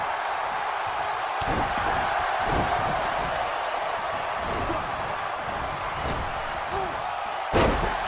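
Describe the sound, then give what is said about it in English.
Heavy thuds of a wrestler's power slam onto the ring mat during a wrestling match, with a few separate impacts over a constant crowd roar. The loudest, sharpest slam lands near the end. “Power slam.”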